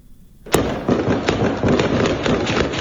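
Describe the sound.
Gunfire during a Taliban military operation against an ISIS hideout in Kabul: a sharp, loud crack opens a rapid, dense run of shots and pops that continues without pause to the end.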